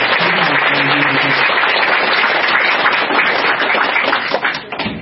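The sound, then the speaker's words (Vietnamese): Sustained applause from an audience at a Buddhist community gathering: dense, loud, even clapping that continues for about five seconds and tapers slightly toward the end. “xin quý vị cho một tràng pháo tay”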